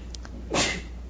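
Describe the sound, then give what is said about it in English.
A single sneeze, a sudden breathy burst that peaks sharply and fades within a fraction of a second, heard alone with no talking around it. “There's a package of sneeze. That was a sneeze package.”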